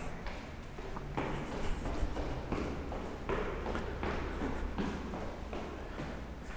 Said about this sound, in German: So, jetzt geht es weiter ins Treppenhaus und es geht abwärts.